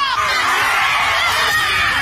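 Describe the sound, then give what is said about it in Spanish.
A crowd shouts during a ritual in which sticks are broken, a dense unbroken mass of loud, overlapping cries and yells that holds steady throughout. “Aquí los rituales. Mira, rompen palos. Gritan.”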